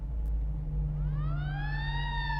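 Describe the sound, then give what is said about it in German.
A siren wails from a captured enemy car. Its tone sweeps upward and then holds a high, steady note over a constant low engine rumble. “Oh, stell doch nochmal die Sirene an, mein Junge.”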